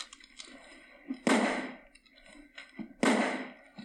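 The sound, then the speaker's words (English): Two gunshots fired into lamps: loud, sharp bursts about two seconds apart, each with a rough decaying tail, separated by quieter low rustles. “Benny's shooting into the lamps right now.”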